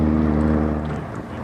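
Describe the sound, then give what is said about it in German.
A motorboat engine drones on the water with a steady low harmonic hum that holds evenly, then eases off in level toward the end; no voices are heard. “Halt! Da kommt einer mit dem Motorboot!”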